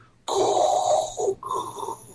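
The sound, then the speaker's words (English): A masked villain's mechanical respirator breathes in a sound effect: a long, loud, airy hiss, then a brief gap and a second raspy hiss of air, with a steady mechanical rhythm. “the Darth Vader breathing sound, and that was it at the end”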